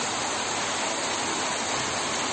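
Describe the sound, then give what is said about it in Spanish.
Torrential morning rain in Madrid pours as a dense, steady hiss, constant and unbroken throughout, with no voices. “ha sido noticia la lluvia que ha caído esta mañana en Madrid.”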